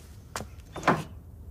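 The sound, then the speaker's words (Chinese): A door is shut with two dull wooden knocks: a brief one first, then a louder, longer thump, with no talk. “快把门关上。”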